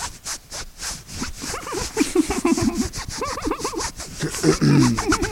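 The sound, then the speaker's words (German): Rubbing and scratching of fabric against a person, a rough, repeated friction sound over several seconds, with faint voiced murmurs mixed in. “Nun müsste ich mich nur noch an Ihnen reiben.”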